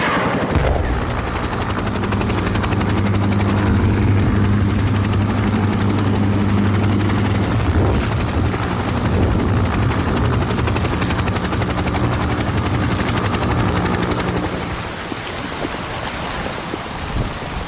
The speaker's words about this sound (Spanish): así fue como nació el helicóptero de ataque. Lo llamaron Cobra y lleva en acción desde entonces.